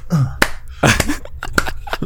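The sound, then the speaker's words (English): A few sharp hand claps mimic the character Joel clapping in The Last of Us. The crisp, evenly spaced claps are separated by short vocal sounds. “I would make my guy clap, so he'd just kind of be like”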